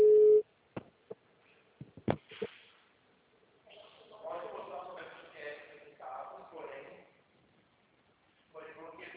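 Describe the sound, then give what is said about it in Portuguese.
A voicemail recording tone: a short, loud, steady beep opens, followed by scattered clicks and thumps, then a voice talking faintly. “Sorry, Souza, Magna is not available. Record your message at the tone. When you are finished, hang up or press pound for more options.”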